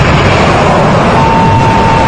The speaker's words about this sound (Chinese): 3、2、1，点火！